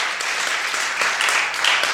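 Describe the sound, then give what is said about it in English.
Church audience clapping their hands in praise to God, a dense, fairly loud and continuous patter of claps with no pauses. “Let's give God a clapping of our hands.”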